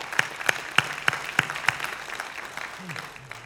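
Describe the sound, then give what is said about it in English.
A light golf clap from an audience at a church gathering: about six sharp, evenly spaced claps in quick succession, then the clapping thins out to near quiet. “A little golf clap, yes. A smattering of applause.”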